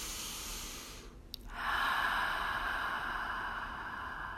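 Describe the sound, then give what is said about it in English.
A deep breath begins after a short pause and a tiny click, then grows into a long, steady, airy rush that carries on strongly to the end. “Taking a deep breath into that tension, wherever that may be in your body. Once more.”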